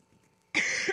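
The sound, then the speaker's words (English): A single harsh cough from a person with a lingering cough bursts out suddenly after near silence and holds loud and breathy for about half a second. “Sorry, I was praying this cough would totally be gone by now.”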